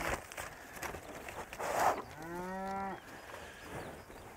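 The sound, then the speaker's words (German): A single low, drawn-out moo from cattle on a farm with over 300 head. It sounds for about a second against steady background noise. “Aber guck mal, wir haben über 300 Rinder.”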